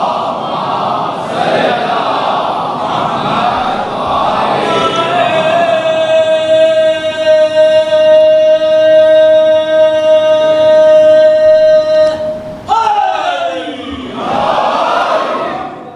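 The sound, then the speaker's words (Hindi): An audience recites salawat in unison: a loud mass of voices that swells into one long, steady chanted note, held for several seconds before it breaks back into crowd voices. “एक सलवात भेजिए मोहम्मद आले मोहम्मद”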